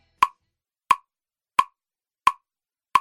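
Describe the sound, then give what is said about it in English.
Five short, sharp clicks mark a steady beat at 88 beats per minute, evenly spaced and alone against silence. “So, for example, if our steady beat was something like 88 beats per minute, which sounds like this”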